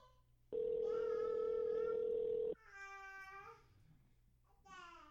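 A telephone call rings before reaching voicemail: one steady, sustained ringback tone lasts about two seconds, then short voiced bursts follow, all fairly quiet.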